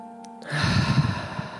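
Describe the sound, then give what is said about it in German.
A deep breath during a relaxation exercise, a single breathy, sighing rush lasting about a second after a brief quiet start, with no talk. “Und dafür atme noch einmal tief ein und aus.”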